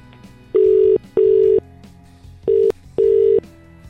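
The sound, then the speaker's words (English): Touch-tone telephone dialing: four loud, steady electronic beeps of similar pitch, each lasting about half a second, separated by short gaps, with no voices. “Let's get dialing.”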